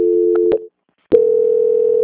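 Telephone tone on a line while a call is transferred: a steady mid-pitched tone is cut by clicks, drops into a short silence, then resumes after another click and continues evenly.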